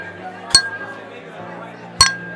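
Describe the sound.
Drinking glasses clink together in a toast: two bright, sharp clinks about a second and a half apart, each ringing briefly over a low, steady background hum.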